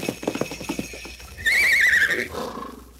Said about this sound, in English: Why, a real live reindeer. And it's just for you.